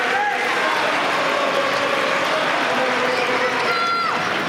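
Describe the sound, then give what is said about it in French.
The tennis crowd at Court Philippe-Chatrier roars in support of a player on serve, a loud, continuous wash of cheering and clapping with a few higher voices rising above it. “Il est au service et il est soutenu. Écoutez le public du Philippe Châtrier.”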